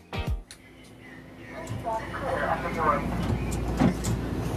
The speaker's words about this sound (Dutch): We zitten na een vlucht van 11 uur in een zelfrijdende metro aan de andere kant van de wereld.